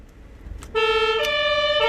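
A fire engine siren in Münster, switched on by pressing a button, enters suddenly partway through as a loud, bright tone that holds steady and shifts pitch a couple of times, following quiet background rumble.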